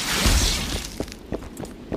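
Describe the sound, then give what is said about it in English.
The Quen sign shield from The Witcher video game activates with a bright, crackling, shatter-like burst, followed by a few fainter clicks and thumps. “We're going to activate the Quen Stone.”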